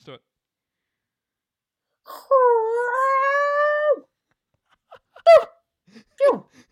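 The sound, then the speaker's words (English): A person vocally imitates a dog run over by a speeder, letting out a drawn-out whining howl that creeps slightly upward in pitch, then a few short yelping gasps. “I'm not good with sound effects, man. You sounded like a dog that was run over by a speeder”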